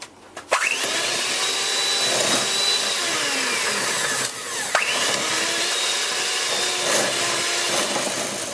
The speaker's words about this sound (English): Now pour in 1 teaspoon of vanilla essence or vanilla extract. Now get a mixer or a beater and just start.